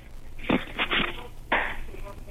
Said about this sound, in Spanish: Pero ya lo rompiste. Muy bien. Rompe el segundo y viértelo.